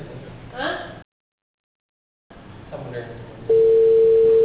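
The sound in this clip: A telephone ringing tone sounds while someone tries to call a person. A brief voice and a moment of silence come first, then a loud, steady low-mid tone starts near the end and continues unbroken.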